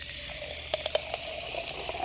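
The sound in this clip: Gas carbonating soda water gives a faint, steady fizzing hiss, broken by a few sharp little pops and bubble bursts around the middle.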